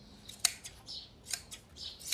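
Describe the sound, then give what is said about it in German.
Scissors cut through animal fur and thin skin: several crisp, irregular snips, some sharp and some softer, with no talking. “Aber ich bin überrascht, wie gut das geht. Hätte ich nicht gedacht. Mit so einer Schere.”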